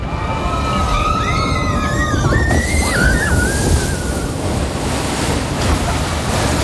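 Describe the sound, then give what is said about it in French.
Children sliding down a water slide: a loud, steady rush of water runs throughout, with shrill, wavering high squeals rising above it in the first half. “Un toboggan aquatique où descendent les enfants dans. Oui! C'est une excellente réponse!”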